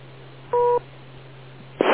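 A short two-tone electronic beep on an amateur radio contact sounds for about a quarter second over a steady low hum. A brief burst of hiss follows near the end.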